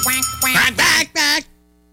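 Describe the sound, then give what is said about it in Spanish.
A parrot imitates a duck's quack: a few raspy, nasal, strongly harmonic quacks follow in quick succession, the last two separated by a short gap, and then everything falls quiet. “Es pata o perico, digo yo. Sí, no, es perico, más perico que otra cosa.”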